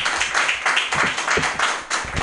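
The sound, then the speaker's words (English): Applause from a comedy club audience welcoming a comedian to the stage: dense, steady clapping that holds at an even level for the full two seconds. “Put your hands together, everybody, for Evelyn Erie Diamond!”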